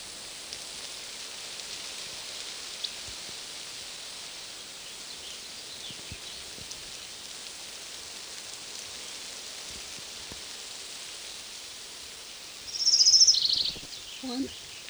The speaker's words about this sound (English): Orange Crown Warbler number one.